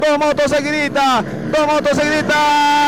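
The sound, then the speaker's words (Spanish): Engines of two race motorcycles passing one after the other on a rally stage make a loud, buzzing whine that shifts in pitch, dips briefly midway, then surges again. “dos motos seguiditas ha pasado.”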